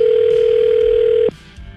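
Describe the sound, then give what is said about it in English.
A steady electronic telephone tone as a radio station places a call to a listener, one unbroken single-pitched tone held for over a second before it cuts off abruptly. “We have his phone number. We're calling Raymond.”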